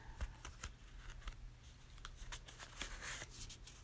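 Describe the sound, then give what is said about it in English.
A deck of cards being shuffled, heard as many faint, crisp rustling bursts over a low steady hum, with no talking. “And I'm just shuffling the cards. So we will shuffle the cards and see what we have to see.”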